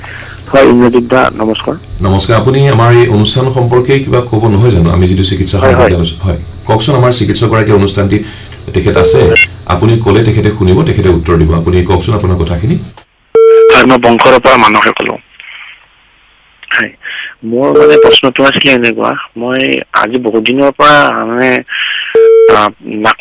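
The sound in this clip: Brief telephone-line beep tones during a listener's phone call recur a few times between and under loud, nearly continuous talk, with a short quiet gap partway through.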